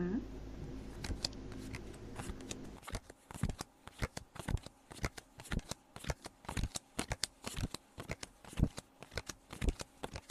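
Playing cards dealt out for a country-statistics card game: a rapid run of many sharp snapping flicks, irregular and crisp, over a low hum at first, then continuing loud and clicky to the end.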